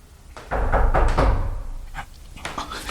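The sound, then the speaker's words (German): Rear hatch door of a vehicle opened by the driver after stepping out, in a dramatized scene; one muffled, thudding swell rises and fades over about a second, then a fainter clunk follows. “Ja, der Fahrer, der steigt aus. Jetzt, jetzt öffnet er die Hecktür.”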